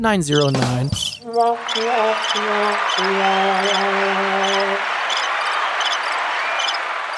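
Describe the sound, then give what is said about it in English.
Cricket chirping: short, high chirps repeat at an even pace over a constant hiss, with sustained lower tones in the first half. “How long is that cricket? 1 second.”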